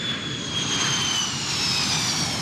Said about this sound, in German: Man will meinen Flieger nicht in New Orleans landen lassen